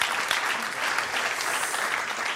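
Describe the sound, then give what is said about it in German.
An audience applauds at a live stage event, a dense, steady wash of clapping that holds at an even level throughout without breaks. “Vielleicht mal einen Applaus für Robert.”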